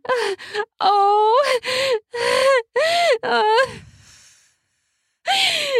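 A woman gasping and moaning at orgasm: a rapid series of loud, voiced gasps with wavering pitch that trail off into a brief silence, then one more gasp.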